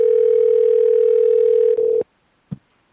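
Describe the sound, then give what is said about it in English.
Telephone dial tone while dialing back a caller on a cell line: a steady, loud tone for nearly two seconds, cut off by a brief rustle, then a single soft click. “I'll go ahead and I'll hang up your house line, and then I'll just dial you right back on your cell line”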